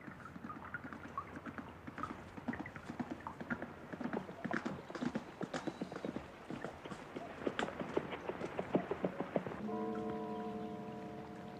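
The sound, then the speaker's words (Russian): Horse hooves clip-clopping as the animal passes by, a quick, uneven run of many faint knocks, followed at the end by a steady droning tone. “Красивый очень звук лошади, которая приезжает мимо.”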